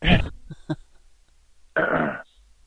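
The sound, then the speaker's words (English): A person clears their throat, with a raspy burst, a couple of small clicks, and then a second, longer gravelly rasp. “Oh, we got somebody clearing their throat here now.”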